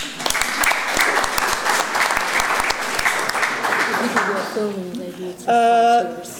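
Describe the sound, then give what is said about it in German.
Audience applause at an evening film screening marking a five-year anniversary: dense, steady clapping that thins out and fades, followed by a brief voice as it dies down. “Und ich glaube, das sollten wir auch klatschen.”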